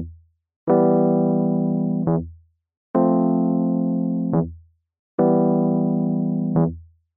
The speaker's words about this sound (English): there is this ground bass, this E, this thing which is establishing us in the key of E minor. Because even though the chords are obviously changing in the song, underneath those chords is the same bass note, that E. Played normally, the bass note is quick and anticipated and sounds like this.